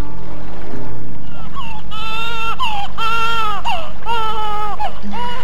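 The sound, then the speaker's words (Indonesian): Infant crying in a few drawn-out wailing bursts, each with a strong, wavering pitch that rises and falls, over a low steady hum and no speech. “Bobo ya, jangan menangis. Sudah, cup sayang.”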